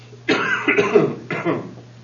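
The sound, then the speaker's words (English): A person coughs after taking a cough drop. A harsh, rough burst is followed by a second, shorter cough, with no other sound. “Doing just what it's supposed to do, making me cough.”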